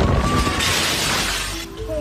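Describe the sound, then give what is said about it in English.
Glass shattering and crashing down during a storm with intense rain and wind battering a campus building, a loud, dense burst of breaking noise over a constant roar of wind and rain. “The video shows the officer hunkered down amid intense rain and wind when the glass comes crashing down just feet from his feet.”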